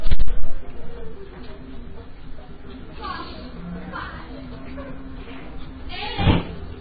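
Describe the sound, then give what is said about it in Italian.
A door being handled, with a cluster of sharp bangs and knocks at the start and another heavy thud near the end, while people talk throughout. “Non toccare, allora non toccate quella porta là che c'è la piccola di Erika.”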